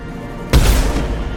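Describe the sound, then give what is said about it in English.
A single gunshot from a shooting video game: after a quiet start, a sudden loud boom hits and leaves a short rumbling tail. “We're just gonna keep shooting however many spawn in,”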